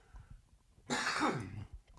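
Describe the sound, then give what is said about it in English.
A man coughs hoarsely: a single harsh, chesty burst of coughing with a throaty, rasping rattle, loud against a quiet background, with no talk. “Don't remove any of the coughs.”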